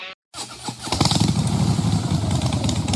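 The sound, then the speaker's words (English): A Harley-Davidson Pan America motorcycle engine starts after a brief silence and revs into a loud, rough, sustained roar that holds steady to the end. “Who needs a rev up? For Harley Heaven, the Harley Davidson Pan America is coming to Harley Heaven in Melbourne, Dandenong and Ringwood.”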